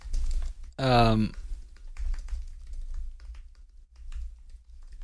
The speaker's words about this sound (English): I gotta type that in.